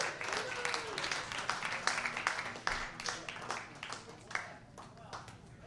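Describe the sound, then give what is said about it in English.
An audience at a trivia quiz night gives a round of applause: a dense patter of many hand claps that slowly thins out, with people talking through it. “Give Monkey Brains a nice round of applause, too.”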